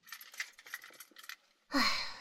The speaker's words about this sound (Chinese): 喂，等一下，你的钥匙忘家里了。